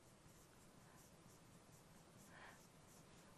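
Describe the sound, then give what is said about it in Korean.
Faint handwriting strokes as a teacher writes out an example sentence, a soft, continuous scratchy rustle with light irregular texture and no voices. “그럼 이렇게 한번 써볼게요.”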